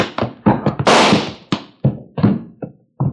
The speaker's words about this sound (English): That slug just went through the fat part of your leg.